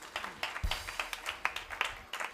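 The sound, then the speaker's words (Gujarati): Audience applause honouring a swami at a Swaminarayan katha in Gadhapur: fairly faint, irregular hand claps that patter unevenly through the whole moment. “સ્વામીને તાળીઓના નાદથી વધાવીએ, ખૂબ રૂડા આશીર્વાદ આપ્યા.”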